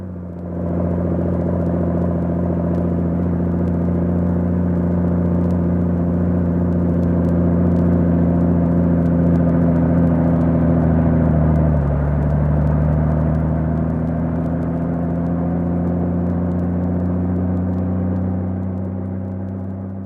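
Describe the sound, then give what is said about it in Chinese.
Engine of a propeller plane running with a steady, low droning hum that holds for the whole stretch, its pitch dipping briefly about midway. “这个时候，阿图正忙着对付螺旋桨，马达发出一连串的”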